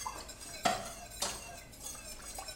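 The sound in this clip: A whisk stirs powdered sugar in a pot, making a steady soft scraping and swishing. Two sharper metallic clinks stand out from the stirring.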